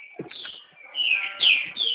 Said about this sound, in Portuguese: Que bom, olha esses passarinhos cantando aí no fundo.